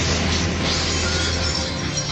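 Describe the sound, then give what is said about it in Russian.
A stone tablet carved with cabalistic signs smashed on the floor, shattering into a loud, dense, continuous crash of breaking and scattering fragments that stays strong for the whole moment. “Руневский высоко поднял над головой доску и силой ухнул ее об пол.”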